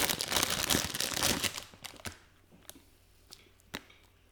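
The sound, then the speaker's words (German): Crinkling rustle of packaging being opened around freshly packed, soft coconut macaroons made with quark. The dense rustle lasts about a second and a half, then a few faint clicks and light taps follow. “Also die sind jetzt frisch eingepackt gewesen, deswegen sind die sehr weich, ne, oder? Pass auf. Ich öffne.”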